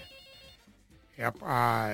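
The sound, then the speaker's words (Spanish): A telephone rings with an incoming call. A loud, tonal electronic ring swells in after about a second of quieter, softer sound and holds steady to the end. “Parece que estaba entrando una llamada. No, no entró.”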